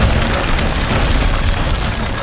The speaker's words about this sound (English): where you can see a huge ripple and the top rungs of this ladder explode out